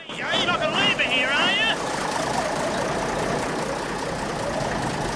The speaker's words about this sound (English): Max tries to start the truck he came across earlier. A great cloud of smoke billows out from beneath the truck as Max starts the engine.